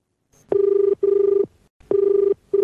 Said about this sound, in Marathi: घेऊया कार्यक्रमातला पहिला फोन.